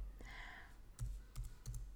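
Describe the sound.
A few faint keystrokes on a computer keyboard tap out a search word, each a short, sharp click spaced irregularly apart over a quiet background.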